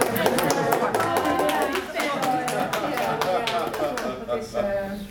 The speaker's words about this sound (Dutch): Applaus voor Guus.